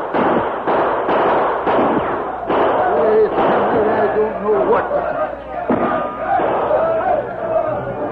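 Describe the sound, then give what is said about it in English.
Gunshots crack through a Western radio drama shootout with outlaws. Several sharp shots are spaced through loud, continuous shouting voices and crowd commotion. “Hey, he's shooting at the outlaw.”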